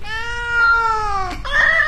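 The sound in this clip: Cat meowing in two calls: a long drawn-out meow whose pitch sinks gently, then a shorter, brighter meow right after, both clear and fairly loud with no talking.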